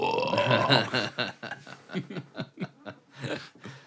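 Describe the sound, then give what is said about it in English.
A long, deep voiced burp rumbles for about a second, followed by a run of short rhythmic chuckling bursts. “I burped through that.”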